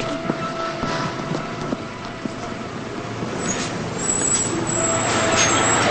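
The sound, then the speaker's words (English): A city bus pulls away and drives onward. Its engine makes a low, steady rumble that grows slightly louder toward the end, with a few faint clicks and rattles along the way. “Lila gets on the bus. She starts moving to her seat as the bus drives onward.”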